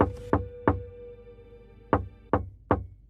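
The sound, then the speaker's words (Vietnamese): Knocking from inside a sealed jade coffin: sharp, hollow knocks, loud and clear with no voices, arriving in two separate groups with a pause between them. “Đúng lúc này, bên trong cỗ quan tài ngọc hoàn toàn kín mít kia đột nhiên vang ra tiếng gõ.”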